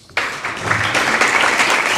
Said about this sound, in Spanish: Bueno, pues termina Ione Belarra, le aplauden los compañeros y compañeras de Podemos.